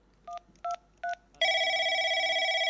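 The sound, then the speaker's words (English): A phone number being dialed on a touch-tone telephone: three short, evenly spaced keypad beeps, followed by a longer steady tone that holds for about a second. “Dial 104, you'll get the maintenance team.”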